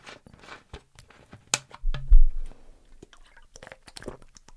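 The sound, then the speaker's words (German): A quick sip of a drink, heard as faint scattered mouth clicks and a soft, fuller gulp in the middle. The sounds are quiet and isolated, with no talk. “Jetzt muss ich mal ganz kurz einen Schluck trinken.”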